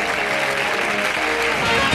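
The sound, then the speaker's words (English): Audience applause: dense, steady clapping with no separate claps standing out, holding at an even level throughout. “And the audience is happy.”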